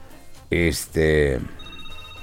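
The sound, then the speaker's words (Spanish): A telephone rings after a call is redialed, giving two close, loud ring bursts with a rich, buzzing tone, followed by a quieter stretch. “Ahí está ya Juanito, nos dice que en estos momentos ya está timbrando.”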